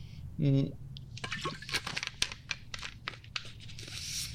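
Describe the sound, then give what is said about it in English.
Sparkling mineral water from Duisburg is poured: crackling, fizzing bursts mixed with crinkly plastic handling noises, loud at first and then sputtering on. A brief hummed voice comes just before it. “maybe I just need a drink of water or something here. Got some nice sparkling mineral water from my hometown of Duisburg.”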